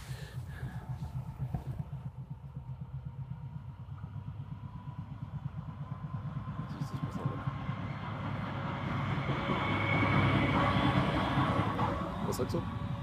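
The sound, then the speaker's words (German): A lone locomotive passes through on rail tracks. Its steady engine rumble and clatter grow louder toward the end and stay strong. “war bloß eine Lok auf jeden Fall, ist chillig, ja, ist hier bloß durchgefahren”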